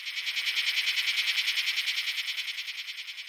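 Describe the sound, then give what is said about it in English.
Rapid, high, dry pulsing buzz from a locust, a type of grasshopper, with many evenly spaced beats holding a steady level for the whole stretch and no other sounds. “That sound was... Locust! Locusts are a kind of grasshopper,”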